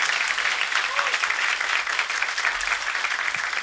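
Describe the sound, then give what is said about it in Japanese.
Audience applause at a live band show as the players are introduced: thick, continuous clapping with an even level and no single claps standing out. “スミちゃんとスエちゃんにも大きな拍手を。”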